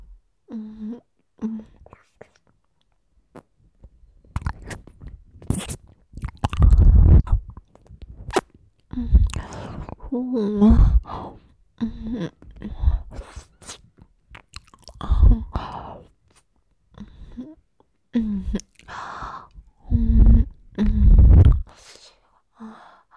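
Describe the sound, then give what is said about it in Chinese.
Chewing and wet mouth sounds come from someone eating a whole meat bun, irregular bursts broken by quiet pauses, with a soft whispering voice between bites. “然后把会长的肉包，整个吃下去，”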